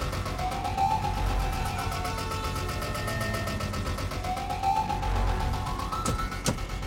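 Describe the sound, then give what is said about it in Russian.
A car speeds along a road with a loud, steady engine roar. A wailing tone rises and falls twice over the roar, and a couple of sharp clicks come near the end. “Автомобиль несется по дороге.”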